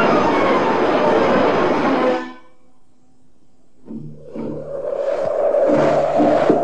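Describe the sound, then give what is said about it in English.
A train travelling on the railway makes a loud, steady roar for about two seconds. It then cuts away to near silence, and a mix of quieter, partly tonal sounds follows. “Jim Hudson took his package on the train with him on Monday morning.”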